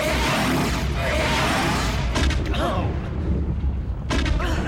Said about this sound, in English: Oh, I can't believe we've lasted this long. They've got to be 30 ships firing at us.